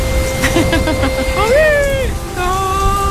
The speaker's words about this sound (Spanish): Y pedimos un deseo, mi cielo, que esta lluvia se lleve todo lo malo, que limpie las malas energías que estaban estancadas con esa humedad.